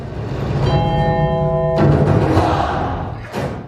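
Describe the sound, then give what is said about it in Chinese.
A bell chime edited into a music track as a cue for children in a timed routine: a sustained ringing tone with clear steady overtones over a dense background, cutting off abruptly midway. “所以我这里面你仔细听会有一个钟声，”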